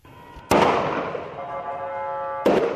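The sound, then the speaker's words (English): Live gunfire on the streets of Caracas: two loud, sharp bangs about two seconds apart, each followed by a long fading rumble, with no voices. “Live fire on the streets of Caracas.”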